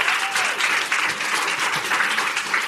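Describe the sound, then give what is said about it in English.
Applause from an audience welcoming three women onto a stage: dense, even clapping that holds steady throughout without voices. “And please give them a big hand and welcome.”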